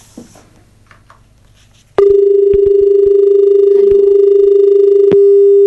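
Telephone line connecting for an incoming call: a quiet stretch gives way to a loud, steady tone that starts abruptly and holds to the end, with a few clicks over it.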